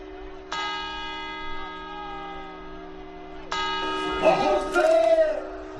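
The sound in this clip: Two clock bell chimes ring out for the quarters before New Year's midnight, each struck tone sounding clear and bright and fading slowly, with voices talking over the second chime.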